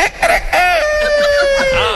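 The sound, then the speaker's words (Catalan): A person imitates a rooster crowing: one drawn-out cock-a-doodle-doo with a clear, sustained tone that dips slightly at the end. “quan comencen a cantar els galls, jo també m'hi poso per allà. Sí, i la gent no sap qui és qui. No, saps? El confonen amb un gall.”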